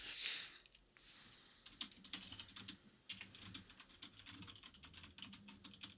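Typing on a computer keyboard: a quiet, steady run of quick, irregular key clicks with a few louder taps scattered through, continuing without pause.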